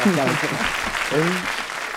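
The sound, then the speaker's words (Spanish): Audience applause after a speaker at a talk, dense and steady clapping, with a voice speaking over it at the start and again briefly midway. “Un aplauso para Jordi, por favor, ¿no? Ha estado muy bien.”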